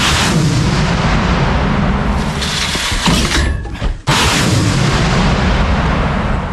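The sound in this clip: Artillery guns firing from a new position closer to the front line: a dense, continuous roar of heavy booming noise, loud throughout, with a brief dip near the middle.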